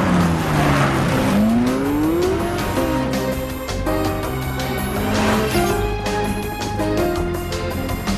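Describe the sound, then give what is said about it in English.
A car races at full speed, its engine roaring loudly and continuously with rising and falling pitch sweeps and some tire squeal, no voices. “The car still goes at full speed.”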